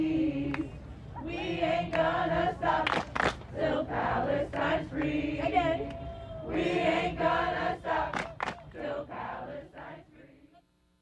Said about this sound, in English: That's the sound of the crowd at Friday night's open mic, organized by POC-centered student poetry collective Eye to Eye,